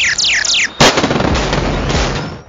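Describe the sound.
Sci-fi mega blasters firing at full power: a rapid run of descending laser-like zaps, then a loud sudden blast that turns into a sustained roaring rumble and fades out near the end.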